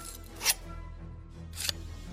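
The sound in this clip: A knife cutting through bonds in an audio drama: two short, sharp slicing strokes over a low, steady hum.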